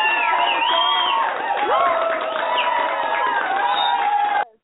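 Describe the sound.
An excited audience cheers and shouts at a church service, a loud mass of overlapping whoops and yells that holds steady before cutting off abruptly.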